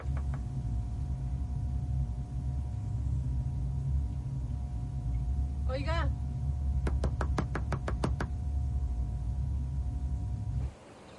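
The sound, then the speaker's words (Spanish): Knuckles rap on the glass window of a security office at the entrance to a residential zone, with a quick burst of several sharp knocks over a low, steady rumble. “En la entrada de la zona, la madre de Miguel golpea el cristal de la oficina de seguridad.”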